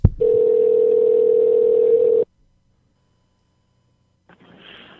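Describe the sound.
A telephone dial tone plays as a steady, loud hum while a call is dialed back. It runs for about two seconds, cuts off abruptly into silence, and faint line hiss returns near the end.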